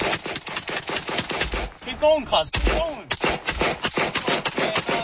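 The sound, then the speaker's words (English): Rapid AK-47 gunfire on a city street, with many sharp shots in quick bursts. It pauses briefly while voices laugh and talk, then resumes at a fast, uneven rhythm. “It's no laughing matter because they're using an AK-47 on the streets of Sydney.”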